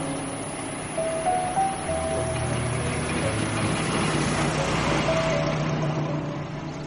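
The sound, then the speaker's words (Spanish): A car drives past a house with a porch and garden on a tree-lined residential street in Los Angeles, 1928, its engine a steady low rumble that swells slightly midway and holds. “En una bonita zona residencial cubierta de árboles y zonas verdes, un coche pasa frente a una hermosa casa con porche, jardín y techo construido de tejas.”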